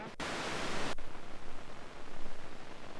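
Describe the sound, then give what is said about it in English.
Crackly static from a 272E noise source. A bright burst of hiss at the start gives way to fainter, duller noise with a steady, pulsing flutter, heard alone. “That's nice and crackly. So as a noise source, the 272E is fantastic.”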